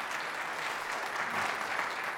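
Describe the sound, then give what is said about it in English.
A church audience applauds to welcome visiting missionaries, with steady, dense clapping throughout at a fairly soft level. “that was the worst welcoming in history. All right, that is not the Canyon Ridge way. So I'm going to do it. You're going to pay attention, and you're going to clap better, all right?”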